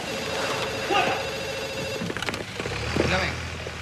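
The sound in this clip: A telephone rings in a bar with a steady electronic bell tone that repeats through the whole stretch, over a busy background of muffled noise and faint voices.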